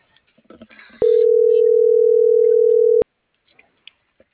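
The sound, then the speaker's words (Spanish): A telephone tone sounds while a call is being dialed: one loud, steady, mid-pitched tone lasting about two seconds. Faint clicks and rustles come before it, and near quiet follows. “Estoy marcando.”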